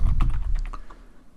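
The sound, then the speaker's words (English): Quick run of key clicks as a user name is typed on a computer keyboard, several crisp taps in the first second, then trailing off more faintly. “In this option I'm literally just going to click connect and type a specific user”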